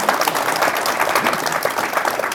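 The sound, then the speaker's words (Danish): Dense audience applause fills a festive gathering being recorded for local radio. The clapping is steady and energetic, a continuous wash of many hands with no pauses. “Og I må godt klappe en gang imellem, fordi det bliver optaget på Radio Ådalen.”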